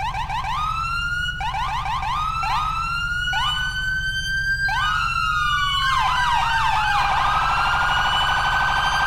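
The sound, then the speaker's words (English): An unmodified police car siren in a video game, loud and electronic, with a run of short rising sweeps, then one long falling tone, then a rapid high-low warble, all over a steady low hum. “Oh, and yeah, I did not change the sirens. I forgot to do so.”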